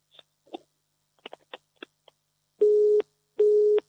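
A telephone busy signal sounds after a call drops: a few faint clicks, then two steady, loud beeps of equal length.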